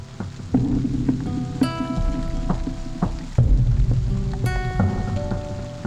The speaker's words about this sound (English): Now, is that your own recording of rain? Yeah, I recorded some rain. Out the window of the bedroom?